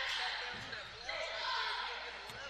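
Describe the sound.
Basketball dribbled on the court during a game against Mountain Home, a few low, dull thuds of the ball bouncing amid steady crowd noise.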